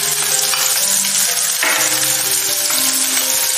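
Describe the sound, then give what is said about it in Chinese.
Steady, bright sizzling of aromatics being stir-fried in a little cooking oil in a clay pot. The frying hiss runs continuously and evenly at a fairly loud level throughout. “接着我们取个砂锅加入少许食用油，把料头倒进来炒香”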